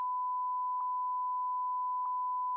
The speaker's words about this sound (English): So we had to cut that. Okay, I'll bleep it.